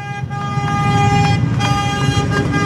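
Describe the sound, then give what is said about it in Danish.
Tractors honk their horns while driving past Christiansborg Palace square in Copenhagen during a farmers' demonstration. A loud, sustained horn blare is punctuated by several shorter toots over a low engine rumble. “Og det, I kan høre lige nu, det er simpelthen traktorerne, der dytter, mens de kører forbi Christiansborg Slotsplads.”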